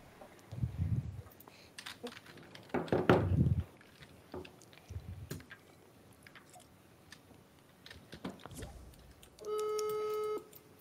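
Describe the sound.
A steady electronic ringing tone from an incoming call sounds alone near the end, lasting about a second, after earlier bursts of voices, crunchy mouth noises and faint clicks.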